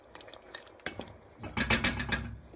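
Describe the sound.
Stirring onion and pepper in a pan while they brown: soft scraping and light clinks at first, then a louder, busier stretch of scraping strokes through the second half.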